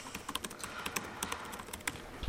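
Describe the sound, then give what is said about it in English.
Someone types a comment on a computer keyboard, producing many quick, irregular key clicks in a faint, steady stream with no talking. “You can also type some comments in here.”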